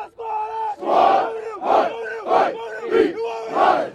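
A college football crowd in northern Manhattan chants on a fall afternoon: loud shouted bursts repeat in a steady rhythm, each swelling and dropping in turn.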